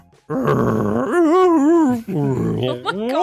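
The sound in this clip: A human voice imitates the garbled noises of a dog toy's voice box. It makes drawn-out, wavering growls and groans in a few long, warbling bursts, rising and falling in pitch.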